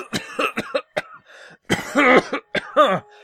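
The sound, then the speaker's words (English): A voice acts out a thick, meaty cough into an elbow: several short, rough bursts, then two longer, harsh, voiced hacks. The coughing is loud and heard alone, without speech. “And he lifts up his handkerchief and coughs meatily”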